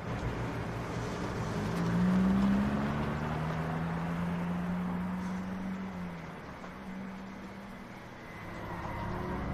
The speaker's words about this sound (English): Their car takes off, cruising down the dim suburban street.